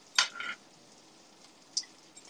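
Food searing in a pan until well browned and charred in spots: a faint frying hiss with a couple of brief scraping, clinking strokes from a utensil, the first louder and longer, the second short.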